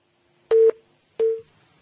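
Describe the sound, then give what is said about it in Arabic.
Line tone after a telephone call is cut off: two short, identical mid-pitched beeps, evenly spaced and fairly loud, with silence between and after. “طب اتصال انقطع، نكمل إن شاء الله.”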